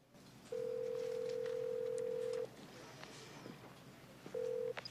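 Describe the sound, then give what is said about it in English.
A telephone line tone sounds as a number is dialed: a steady mid-pitched tone lasting about two seconds, then a quieter pause and one short repeat of the same tone over faint background noise. “dials another number.”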